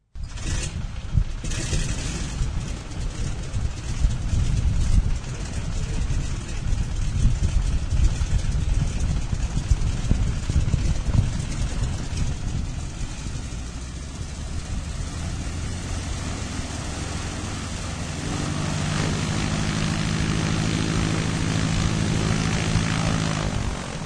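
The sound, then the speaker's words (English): A T6 propeller airplane's engine starts up with a loud, rough roar that settles into a steady, throbbing drone, turning smoother and more tonal toward the end. “Here's the T6 starting up.”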